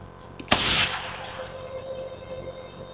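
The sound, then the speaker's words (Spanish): A gunshot fired through a silencer: one sharp, hissing burst with a short fading tail, heard over a steady low background with a faint sustained tone. “El silenciador hace del disparo un susurro”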